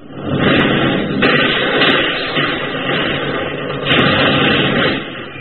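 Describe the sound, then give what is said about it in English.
Artillery shells exploding in a war film, a loud, continuous rumbling din that swells and eases in waves, with no clearly separate blasts and no voices. “Keep moving! You gonna let a few lousy shells scare you?”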